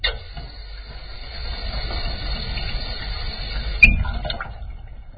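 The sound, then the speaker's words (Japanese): Water poured to rinse off a surface after scrubbing with a brush and detergent, a faint, steady wash with one louder splash near the end. “この辺は、適当に一気に洗い流して、水でもかけとくか。”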